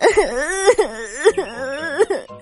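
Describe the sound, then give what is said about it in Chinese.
A voice performs the sad, wailing sobs of a shy little goose with a bare, featherless bottom. A few drawn-out, quivering cries rise and fall in pitch, with short breaks between them. “珍珍伤心的哭了。”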